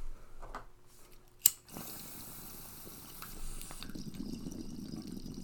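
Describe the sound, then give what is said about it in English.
Water bubbling in a bong being smoked, faint and low: a single sharp click comes first, then a soft hiss, followed by a rougher, steady gurgle that swells in the last seconds. “So, that's the coffee of the day. Let's rip this fucking bong.”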